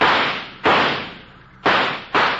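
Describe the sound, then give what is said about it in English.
Sharp gunshot cracks from shooting at a burning dynamite fuse: several loud, abrupt blasts, each fading over a long ringing decay, with two coming close together near the end. “You shot that dangling fuse right off. The spark stopped.”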